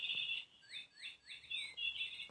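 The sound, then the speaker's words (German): A light-activated toy bird gives electronic chirping: a sustained high tone breaks into a few quick rising chirps, then returns to a steady shrill tone. “Wir haben so einen Vogel hier. Und der geht eigentlich nur bei Licht an. Ich weiß nicht, was er jetzt hat.”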